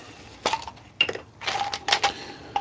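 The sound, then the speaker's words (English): Loose metal screws clink and rattle as a hand rummages through a pile of them. A few short, sharp bursts of metallic clattering are separated by brief pauses, fairly faint overall. “I've got some miscellaneous screws over here.”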